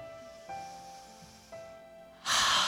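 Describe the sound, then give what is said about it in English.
A deep breath is drawn in, a brief loud airy inhale at the end, after soft sustained tones with two gentle onsets and no talking. “Take a deep breath in.”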